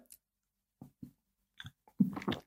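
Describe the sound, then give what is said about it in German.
A big sip taken from a drink: a few faint, brief swallowing sounds, then a louder, noisier gulping burst at the end. “Gut, ich gebe mir jetzt noch mal einen grossen Schluck da”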